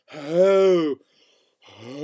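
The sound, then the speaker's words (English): A person's vocal breathing exercise: a sustained voiced tone that rises slightly and then falls before stopping, followed after a brief pause by a second tone beginning. “I forgot to do my breathing exercises. I usually do my breathing exercises before we cast”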